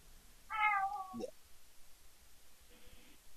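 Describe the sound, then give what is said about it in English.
A domestic cat gives a single clear, tonal meow that wavers slightly and drops at the end, followed by a short scrape and a faint later sound over quiet background noise. “Got a problem with my kitty cat.”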